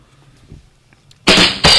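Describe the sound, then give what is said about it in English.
Rim shot drum sound effect: two loud, sharp cracking hits in quick succession after near silence. “There we go. No, folks, that wasn't funny. I just figured if I played the rim shot, you'd laugh.”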